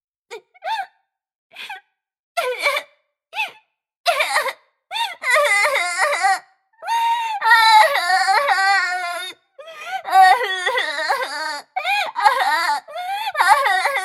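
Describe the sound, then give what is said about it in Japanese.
A person crying and sobbing. Short, broken, gasping sobs come first, then build into longer, sustained high wailing cries with catches of breath between them. “あらあら、大丈夫よ。そんなに泣かないで。”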